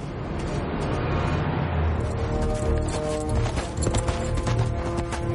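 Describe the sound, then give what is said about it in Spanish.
Rapid, steady hoofbeats of a horse galloping as its rider heads toward a city in a fantasy battle scene. The clattering continues throughout at an even, driving rhythm over a sustained tonal background. “Galopa hacia Ciudad de Valle.”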